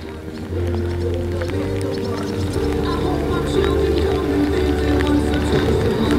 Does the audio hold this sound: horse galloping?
yes